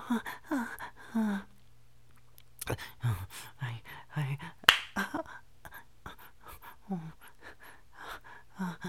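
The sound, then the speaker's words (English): A single sharp slap lands on the back of someone's neck, a brief crisp crack set among breathy whispered talk and gasps. “I can't remember the last time someone ever slapped my neck buns before.”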